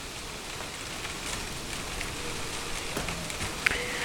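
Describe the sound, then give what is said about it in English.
Rain falls as a storm arrives, a soft and steady hiss with scattered patters of drops, fairly faint and without any talk. “The rain is coming. A storm is here.”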